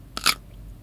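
A five-year-old child crunches on a cucumber: two quick, crisp bites close together, fairly faint, followed by quiet.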